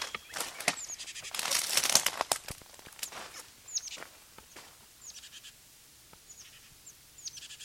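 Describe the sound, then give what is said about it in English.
Two birds give sharp, high protest calls as a few short, separated notes spread across the stretch, with a louder burst of rustling noise early on. “Two birds giving protest notes.”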